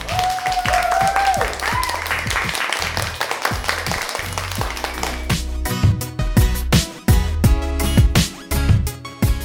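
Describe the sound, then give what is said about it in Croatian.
Classroom applause for pupils who served as teachers for the day, a busy patter of clapping mixed with music that has a steady, thumping beat growing more prominent toward the end. “Jedan pljesak može za učiteljice današnje.”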